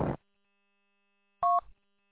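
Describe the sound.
Telephone dialing: a short noisy burst, then after a pause a brief two-tone keypad beep, with near silence between them.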